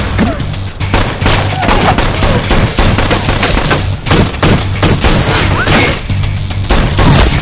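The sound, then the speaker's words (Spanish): Rapid gunfire in an action thriller scene, with shots aimed at people crouched inside a bus. Many loud cracks and bursts follow in dense succession, with no letup across the whole stretch. “Agachados dentro del autobús, Frank y Luis se defienden de los disparos.”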